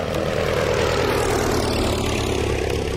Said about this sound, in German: peilt der Weltkriegspilot John McReady den Wald an. An Bord der Maschine sind 60 Kilo Bleiarsenat.